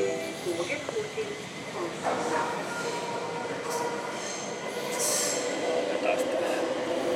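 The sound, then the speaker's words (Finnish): Subway metro train starting to move, heard from inside as a steady broad rumble and hiss with faint wheel squeal and some murmuring voices underneath. “Ja kohta tämä lähtee liikkeelle epäilemättä. Kuullaan, minkälainen äänimaisema on paikallisessa metrossa,”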